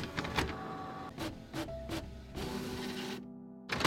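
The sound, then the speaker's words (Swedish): A printer prints out pages of information, whirring and clicking in short mechanical bursts. A longer, steadier feed run follows, then it briefly stops and starts up again. The sound is fairly faint and there is no talking. “Jag skriver ut lite information om olika typer av fordon, både gamla och nya. De kommer här.”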